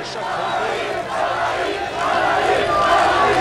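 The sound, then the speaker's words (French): A large crowd on Brussels' Grand Place roars in welcome for the Red Devils, the national heroes of the day. The din is loud and unbroken, with shouting and cheering voices that swell toward the end. “Cette foule était bien là ce midi sur la Grand Place de Bruxelles pour accueillir ces héros du jour, les Diables Rouges.”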